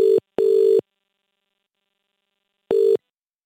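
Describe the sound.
Ringing tones of a telephone call being connected: two steady mid-pitched tone bursts, a short one and a longer one, then silence before a third burst. No voices.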